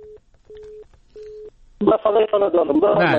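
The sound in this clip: A telephone tone sounds after a call is cut off, three steady mid-pitched beeps with short gaps, followed by a voice talking.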